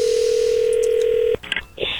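A telephone dial tone hums steadily for over a second as someone starts calling a woman back, then cuts off into a few short, uneven bursts of sound.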